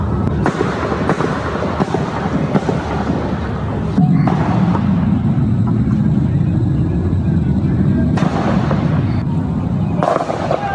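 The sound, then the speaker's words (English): Small arms gunfire: several sharp, scattered cracks cut through a steady, rumbling wash of background noise. “now that sounds like small arms fire”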